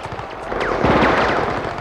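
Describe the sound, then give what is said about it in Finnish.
Rapid rattling gunfire as a soldier shoots from the hip during an infantry attack on an enemy position, a dense continuous burst of shots lasting the whole clip. “Kari Luoto ampui kainalostaan ja huusi suoraa huutoa, vaikka hän ei nähnytkään vihollista.”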